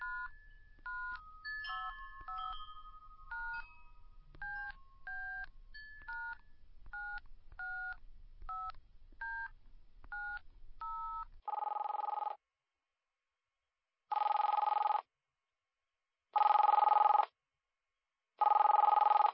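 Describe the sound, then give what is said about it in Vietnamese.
Telephone keypad tones as a phone is dialed, a quick run of many short beeps, then four long, loud ringing bursts with silence between them. “Rồi tớ phải gọi điện để cảm ơn em ấy mới được.”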